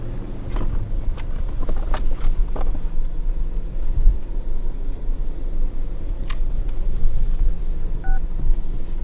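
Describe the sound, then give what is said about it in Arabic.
Telephone keypad tones as a number is dialled on speakerphone inside a car, with a few short beeps over steady engine and road rumble. “اتصل على براء أتأكد منه إذا لمح حاجة. حطه على السبيكر.”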